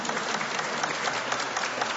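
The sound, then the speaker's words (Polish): A crowd applauds the Janicki band at a pilgrimage gathering, with dense, even clapping that stays loud and unbroken for the whole two seconds. No voices are heard over it. “i zespół Janicki, brawa dla nich.”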